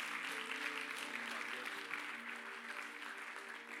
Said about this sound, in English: I want you to put your hands together and give him a nice legacy welcome this morning.